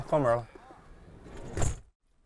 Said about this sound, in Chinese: 关门了。